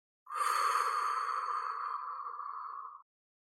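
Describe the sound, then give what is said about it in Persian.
A long, steady breath pushed out through the mouth in a guided deep-breathing exercise, one continuous sighing exhale with a faint airy tone that holds level for nearly three seconds, then stops. “راه بینی زیباتون هوای اتاق رو بکشید توی ریه‌هاتون. و از راه دهن زیباتون هوا رو خارج کنید.”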